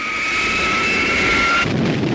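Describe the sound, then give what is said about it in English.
Sound effect of a flying saucer blasting off: a steady, high two-tone whine over a rushing hiss, which cuts off abruptly into a broad, steady roar. “The defeated spacemen are preparing to blast off.”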